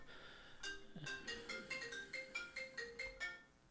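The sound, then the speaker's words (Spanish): Faint melodic mobile phone ringtone going off during a call, a quick, bouncing run of many short, bright electronic notes in a repeating pattern. “me disculpan por esa llamada.”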